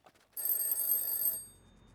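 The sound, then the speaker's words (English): A telephone ringing: one bright, shrill electronic ring lasting about a second, loud and alone after a couple of faint clicks, then cutting off into near silence. “phone rang early the next morning, waking him from a dead sleep.”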